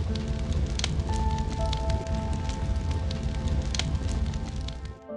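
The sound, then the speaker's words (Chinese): Wood crackling as it burns in a fireplace: irregular small pops and snaps scattered over a steady soft hiss, continuing throughout before dipping briefly at the end. “其实在这个世界上，有很多的声音可以让人觉得治愈，比如炉火中木头燃烧的声音，”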